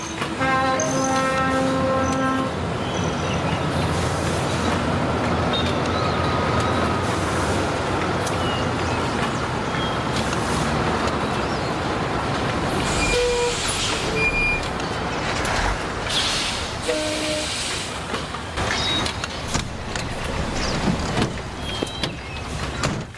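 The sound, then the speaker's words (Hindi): A truck drives up and brakes: a long, steady engine rumble, then air-brake hissing and a few clunks, with the engine still running underneath. “आज तो मैं इस truck को उड़ाता हुआ आया हूँ, मैं इसे दफ्तर में रख के आता”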